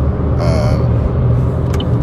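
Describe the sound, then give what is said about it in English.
Loud, steady low rumble of a car being driven, with a constant engine and road drone holding level throughout and no talking. “I'm driving, by the way.”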